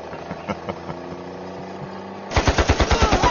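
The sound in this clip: Battle gunfire: a low droning rumble with scattered thuds gives way to a loud, rapid burst of machine-gun fire, about ten sharp reports in quick, even succession.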